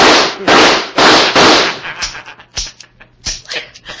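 Gunshots from a gun in a radio drama: four loud, sharp bangs in quick succession, then a scattering of fainter, brief pops and clicks.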